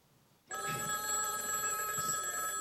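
A telephone bell rings in a hallway. It starts abruptly after a half-second of quiet, then sounds continuously, loud and bright, until the end.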